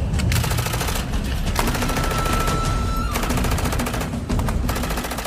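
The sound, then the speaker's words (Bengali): Many guns firing at once in a dense volley, a continuous rattle of rapid shots with a few sharper cracks standing out, loud throughout with no voices. “একসঙ্গে অনেকগুলো বন্দুক গর্জন করে উঠল।”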